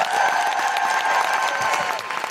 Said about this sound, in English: can I have a huge, huge, huge round of applause for the incredible Jessica Hines.